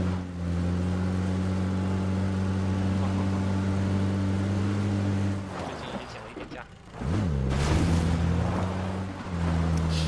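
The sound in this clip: A vehicle engine drives in the video game PUBG with a steady low droning hum and strong harmonics. The hum dips briefly, then returns with a wavering, shifting pitch.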